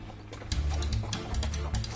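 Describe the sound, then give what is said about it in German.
A horse-drawn carriage on the road, with hooves clopping in an uneven run of knocks over a steady low rumble of wheels. “Eine Kutsche steuert man mit den Leinen. Die sind mit dem Pferdemaul verbunden. Wenn das Pferd schneller laufen soll, schnallt man mit der Zunge.”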